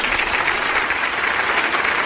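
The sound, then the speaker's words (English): A round of applause: dense, even clapping from many hands, held at a steady, fairly loud level throughout. “He gets a round of applause for his performance Monday night.”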